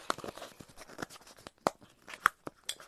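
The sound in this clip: Card drawn from a deck, in a card reading about confidence: crisp papery crinkling with several sharp snaps and flicks, the loudest near the end, and no voices.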